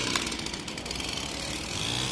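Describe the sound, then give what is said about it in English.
Chainsaws churn through decaying tree branches near live wires, giving a steady, raspy engine buzz. It is fairly quiet and runs on without clear breaks. “The clinking of carabiners soon gives way to the churning of chainsaws.”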